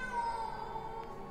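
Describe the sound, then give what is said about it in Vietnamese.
A cat shrieks in one long, eerie, wavering yowl, faint and sustained, with no other sounds around it. “Con mèo rít lên những tiếng ghê rợn”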